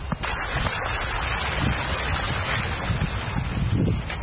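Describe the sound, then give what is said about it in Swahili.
The flowing water of the Nile river makes a steady, dense rushing wash that stays even throughout, with no voices. “Sauti hii ya mtiririko wa maji haya ya mto wa Naili ni ishara ya uhai kwa mazao ya wakulima hawa wanaoendelea na shughuli zao za kilimo na uvuvi”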